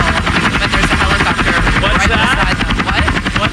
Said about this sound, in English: How are people talking at a normal level when there's a helicopter right beside them?